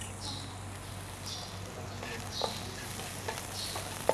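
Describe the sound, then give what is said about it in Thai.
Crushed chilies frying in a little oil, a faint, steady sizzle with a few sharp pops and clicks standing out toward the end, no voices. “เราจะเติมน้ำมันไปนิดนึงนะเพื่อให้น้ำมันมันไปดึงกลิ่นหอมของพริกออกมาได้ด้วยนะคะ”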